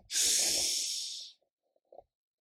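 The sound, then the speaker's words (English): A single long, deep breath inhaled steadily for about a second, an airy hiss that is fairly loud and even, then near silence with a couple of faint clicks. “take some deep breaths with me. Deep breath in.”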